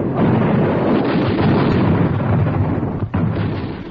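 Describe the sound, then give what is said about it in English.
A machine gun fires in a field demonstration, a dense, unbroken roar of rapid shots that dips briefly near the end before resuming. “One of my employees could operate the gun in action, showing the men in the field just how this machine gun operates in action.”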